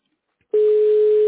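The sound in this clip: Telephone call going unanswered: a steady electronic line tone cuts in abruptly after a moment of silence and holds at one unchanging pitch to the end.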